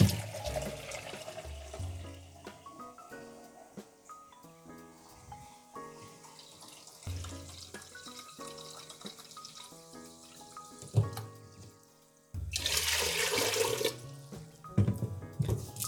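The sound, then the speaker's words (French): Tap water runs into a cooking pot being filled for boiling broccoli, a soft steady rush under background music that swells into a louder gush near the end. “Pendant que je continue de faire couler mon eau”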